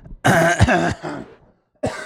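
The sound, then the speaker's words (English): Coughing and throat clearing from a person with a mild, phlegmy allergy: a few rough, loud bursts, with a long first fit, a softer cough after it, then another loud burst that is cut off at the end. “the coughing is driving me crazy”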